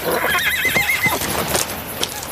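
A horse neighs while being ridden among trees, a high, quavering whinny with a wavering pitch, followed by faint clip-clopping hooves.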